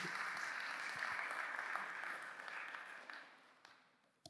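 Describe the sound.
An audience applauds to welcome a guest speaker to the stage with sustained, even clapping that gradually fades away, ending in a single brief knock.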